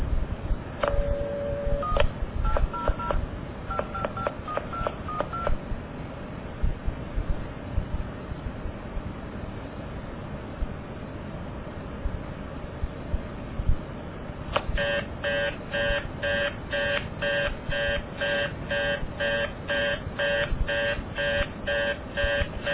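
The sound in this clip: Touch-tone dialing of an 800 number on a telephone line: a quick series of dual-tone digit beeps, then a stretch of line hiss, followed by a fast-repeating reorder tone pulsing steadily to the end.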